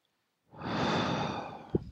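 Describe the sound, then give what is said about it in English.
A single strong, deep breath drawn in, a long airy rush lasting over a second that swells quickly and slowly tapers, ending with a brief soft click, heard alone against silence. “And then a strong deep breath in again. Then just one strong breath in again.”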